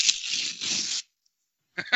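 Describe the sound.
A paper post-it note is torn up: one sustained rip lasting about a second, a short silence, then two quick sharp tears, crisp and alone.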